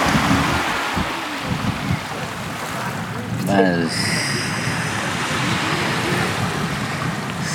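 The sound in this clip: Sea water and waves wash around a swimmer in a constant broad rushing surf, mixed with wind buffeting the microphone.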